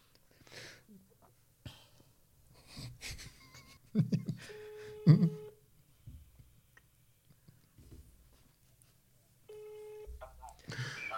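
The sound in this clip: Telephone call being placed: two steady ringing tones on the line, separated by a pause, with people talking and brief clicks and bumps around them.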